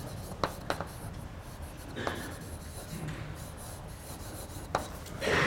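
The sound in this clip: Writing on a board during a lecture makes soft, scratchy strokes. A few sharper marks stand out against a quiet, hissy background.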